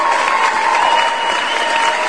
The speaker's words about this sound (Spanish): Por supuesto, claro que sí, aplausos para mi amigo Helmi